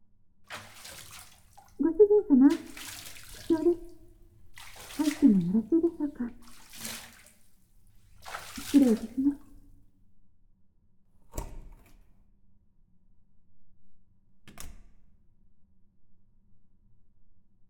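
Water being drawn for a bath, heard as a few intermittent faint splashing, pouring bursts followed by two sharp isolated clicks in otherwise quiet surroundings.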